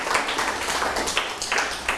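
Students applaud a classmate in a classroom, a dense, even clatter of many hands clapping at a steady level for the whole two seconds, with small bursts of louder claps scattered through.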